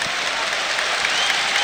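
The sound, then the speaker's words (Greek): Steady, dense applause from Olympiacos fans at a basketball final against Real Madrid as Sasha Vezenkov steps up for his second free throw after missing the first; the clapping stays loud and even throughout. “χειροκρότημα του φίλου του Ολυμπιακού για τη δεύτερη προσπάθεια του Σάσα Βεζένκοφ.”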